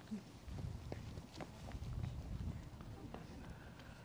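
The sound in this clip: Quick footsteps of a person running straight back as fast as they can make a rapid series of faint, irregular thuds, with speech in the background.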